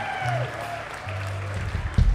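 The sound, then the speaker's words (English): An audience applauds at a live evening show after a band's set. The clapping is a soft, continuous patter, fairly faint, with a brief thump near the end. “Let's have a big round of applause”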